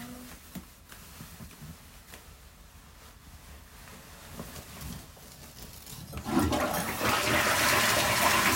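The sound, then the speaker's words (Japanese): Toilet being flushed: quiet low rustling gives way to a loud rushing gush of water that surges up and keeps flowing to the end. “うんちくん、バイバイ。流してきます。”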